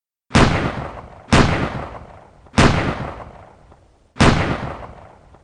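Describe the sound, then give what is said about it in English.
Four pistol shots from a Colt 1911 ring out at an even pace about a second apart. Each is a loud, sharp crack with a long fading tail before the next. “Without thinking, without blinking, Joseph Doherty raised his Colt 1911 in the direction of Frederick Bronski and fired four shots.”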